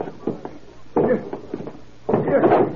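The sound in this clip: Police forcing a door in: a few sharp knocks, then two louder crashing bursts of impact against the door, separated by short pauses.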